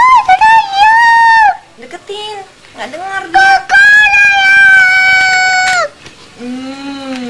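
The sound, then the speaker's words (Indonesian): Rooster crowing loudly in several long, drawn-out calls with shorter bursts between them, ending with a lower, softer call. “Bangun pakai ayam aja nih, pakai ayam bangunin.”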